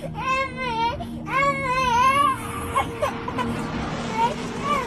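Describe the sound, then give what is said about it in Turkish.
A small child in Gaza cries in two long, wailing sobs, and then a murmur of other voices and chatter continues more quietly. “Küçük çocuk ağladı, abisi sırtını sıvazladı.”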